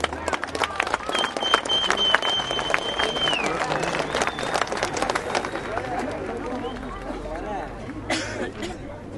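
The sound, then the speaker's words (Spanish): Applause and crowd chatter at an evening gathering, clapping mixed with a murmur of many voices and a few shouts, fairly loud and continuous, with a short whistle-like tone early on. “Un aplauso para todos.”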